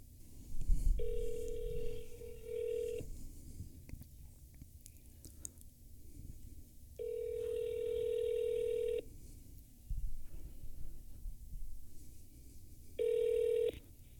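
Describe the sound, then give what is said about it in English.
Telephone ringing tone from a call, heard through a phone held up to a microphone: three steady, mid-pitched electronic bursts of about two seconds each, the last cut short, separated by pauses over a low background hum. “Maybe you can call and just hold up to the mic because I can usually hear them pretty good.”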